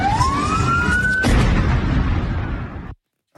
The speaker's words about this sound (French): Voilà, donc c'était un son effectivement très court. Je ne savais pas que c'était aussi court que ça. C'était le son de l'explosion.